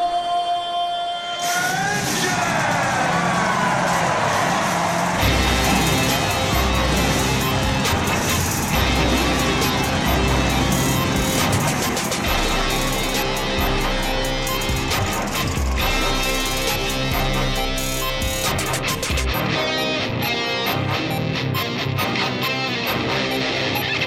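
Race car engines firing up at a Nashville race: a droning tone sweeps upward, then a loud, sustained roar of several engines revving and growling continues for the rest of the stretch.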